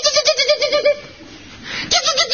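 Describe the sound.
A human voice imitating an upset chipmunk dashing back and forth along a branch near its nest: rapid, high, warbling chatter in two bursts separated by a brief pause.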